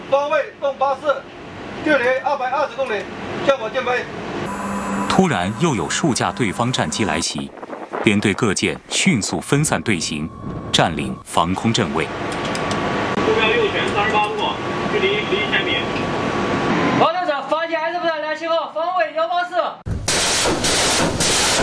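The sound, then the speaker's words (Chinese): Heavy booming blasts from naval ships' main guns fire continuously at a sea target during a fleet exercise. The repeated thunderous shots roll under a narrating voice. “编队各舰主炮连续对目标实施炮火打击，海面目标被彻底摧毁。”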